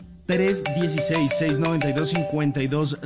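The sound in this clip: A telephone rings with an incoming call: a loud, melodic electronic ringtone starts abruptly after a brief quiet moment and continues steadily to the end.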